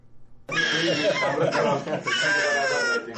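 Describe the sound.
A child cries during a polio vaccination: a loud, sustained, high wailing cry that bursts in suddenly and carries on unbroken to the end.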